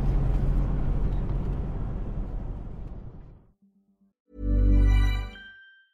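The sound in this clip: A car drives along, its steady low engine and road rumble holding for about three seconds before fading out. A short, loud, tonal hum follows after a brief pause.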